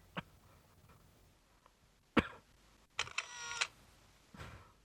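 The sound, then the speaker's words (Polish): A phone camera fires while photographing a book page: a few sharp clicks and one longer rattling burst, heard alone against a quiet background. “No to sprawdźmy. Robię zdjęcie.”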